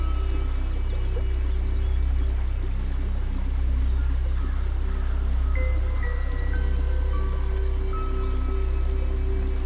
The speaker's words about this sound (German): neues Wasser und das alte Wasser strömt davon. In einem gleichmäßigen Fließen gehen die Wassermassen an uns vorbei.